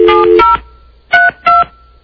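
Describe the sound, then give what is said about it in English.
Telephone keypad dialing tones beep loud and clean: first a longer burst of tone, then after a pause two short, separate beeps. “We're going to try to call John Pop.”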